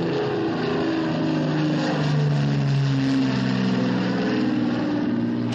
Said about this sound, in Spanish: Se apea un civil interpretado por Gregory Peck y mira hacia el avión sinistrado, al que se le acerca un coche de bomberos.